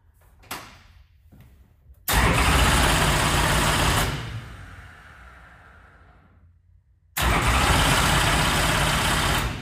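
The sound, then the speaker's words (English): A race car engine is spun over on the starter to clear excess fuel. Two long, loud bursts of steady mechanical whirring are separated by a quieter, fading stretch, with a faint click just before the first burst. “So I like to spin it over and get any excess fuel out. So I'm gonna do that.”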